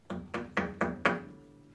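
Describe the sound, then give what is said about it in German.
Five evenly spaced knocks on a door at an artists' agency, hollow and fairly soft, each with a short decay, followed by a quiet pause. “Ich habe mal so eine Szene für Sie vorbereitet, also es klopft in einer Künstleragentur.”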